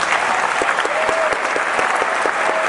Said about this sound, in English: Everyone, put your hands together to welcome our new co-host